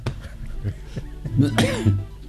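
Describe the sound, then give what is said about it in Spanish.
A short coughing fit brought on by excitement: a few loud, harsh bursts with throaty, voiced sounds between them. “Me dio la tos por la emoción, sí, del charro José Manuel Moreno.”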